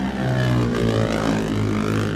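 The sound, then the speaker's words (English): Racing motorcycle passing during the Isle of Man historic Classic Senior TT race, a loud continuous engine drone with strong steady harmonic tones throughout. “As we strain our ears once more, we look up the road in the sunshine here on the Isle of Man, the historic classic senior TT race. Here we go, next runner through.”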